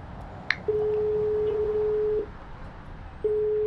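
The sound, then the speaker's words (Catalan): Ringback tone of an outgoing telephone call: a brief click, then a steady mid-pitched tone lasting about one and a half seconds, a pause, and the tone beginning again. “Truco a la Verònica.”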